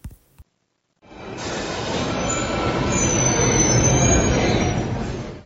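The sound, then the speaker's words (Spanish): Metro train wheels squealing as the train stops at a station: after near silence and two small clicks, a loud, dense rail roar with a high metallic squeal swells in and holds until just before the end. “Parada Metro Xilotzingo.”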